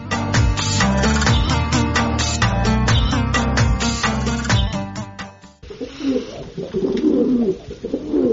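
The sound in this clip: Pigeons of Baghdadi and Shirazi breeds coo while being fed grain, a dense, loud, continuous murmur of overlapping calls that runs throughout and changes texture partway through.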